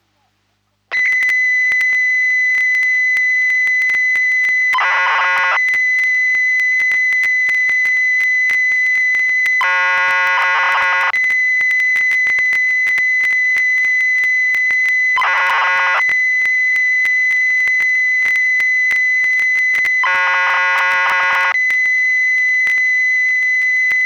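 Famicom BASIC program data tones played from cassette tape: a loud, steady high carrier tone runs throughout, broken by four buzzing bursts of modulated data at fairly even intervals, with no other sound.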